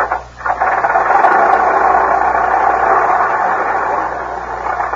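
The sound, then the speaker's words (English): A 1910 Stanley Steamer automobile runs with a loud, steady rushing drone that holds almost unchanged throughout. “What kind is it? Oh, it's a late model. It's a 1910 Stanley steamer.”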